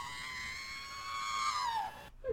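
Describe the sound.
Astromech droid squealing in protest during a starfighter loop: a high, electronic, whistling squeal that holds and then slides downward in pitch before cutting off abruptly.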